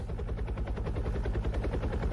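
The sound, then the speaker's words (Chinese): A firefighting helicopter carrying water to a blaze passes over, its rotor chop a fast, steady, loud thudding beat over a deep, continuous low rumble. “哎，你看，直升机来了。 哎，我知道，那是国家派来的。”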